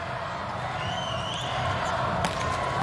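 Substitute server Leon hits a volleyball serve in a match against the USA. One sharp hit of the ball stands out near the end over steady arena crowd noise.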